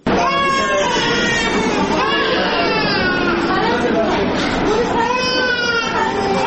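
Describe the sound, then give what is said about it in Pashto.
Babies crying in the children's ward of Tarinkot provincial hospital: continuous high, wavering wails that overlap with one another, along with voices and chatter. “د چا ماشوم په غېږ کې دي، د چا مخې ته پر کټ ورته پروت دی. ماشومانو خپل رنګونه له لاسه ورکړي تک ژاړ دي.”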